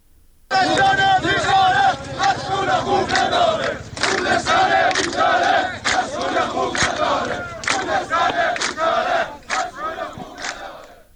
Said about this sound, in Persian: صدای شعار کارگران رو میشنوید.